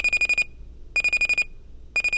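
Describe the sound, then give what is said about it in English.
An electronic alarm clock beeps in three bursts of rapid, high-pitched beeps. Each burst lasts about half a second, with short silent gaps between them. “the numbers on your alarm clock hit that magical combination 6:15”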